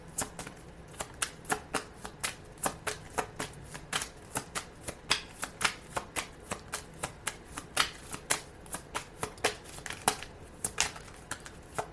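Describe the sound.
Tarot cards are shuffled in a long run of crisp, papery snaps, many rapid slaps in a fairly steady rhythm, heard alone.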